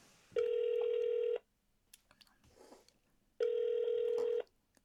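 Telephone call ringing out to an unanswered number, two identical steady ringback tones about a second long with a gap between, faint rustling and small knocks in the pause.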